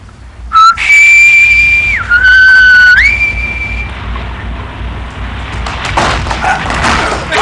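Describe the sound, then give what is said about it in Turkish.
A whistle is blown as a signal by someone going to their post: one shrill blast lasting about three seconds, its pitch jumping up, dipping, then rising again, followed by a low, noisy rumble. “Sen vazife başına gidince düdüğü çalacaksın.”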